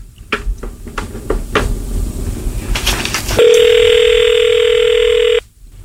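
A steady ringback tone on an outgoing telephone call sounds for about two seconds, then cuts off abruptly. It follows a series of sharp clicks and knocks.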